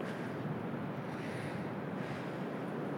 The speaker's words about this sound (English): I'm getting closer to the actual beach where the waves are breaking, and the rock pools are a bit deeper here.